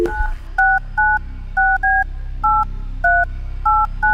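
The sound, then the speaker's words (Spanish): A telephone is dialed again: a quick sequence of about eight clear two-tone keypad beeps, each short and evenly spaced, sounding alone over a faint background hum. “Pero mira, esto hay que volver a llamar. Vamos a llamarlo otra vez.”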